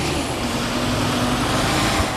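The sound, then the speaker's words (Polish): A garbage truck drives away while cars arrive, heard as a steady low engine rumble and road noise. The drone is continuous, with no distinct separate events and no voices. “Śmieciarka odjeżdża, samochody przyjeżdżają.”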